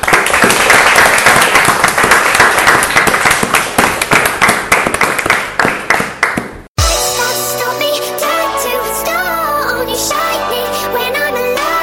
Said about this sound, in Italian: applausi.